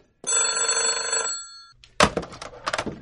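A telephone bell rings in one sustained, loud, bright burst of about a second, then cuts off.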